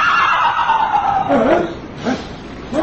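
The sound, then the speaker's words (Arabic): A horse whinnies for a sea horse in a radio drama, a long loud call sliding downward in pitch, followed by a few short voiced bursts. “الحصان! الحصان! حصان البحر!”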